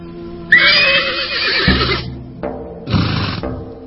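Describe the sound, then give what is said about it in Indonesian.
A horse neighs beside a horse cart waiting in a courtyard planted with tanjung and nagasari trees: one loud, long, high whinny that trails into a lower shudder, then a shorter second call, heard alone. “Sebuah gerobak kuda sudah disiapkan di halaman yang banyak ditumbuhi pohon tanjung serta nagasari.”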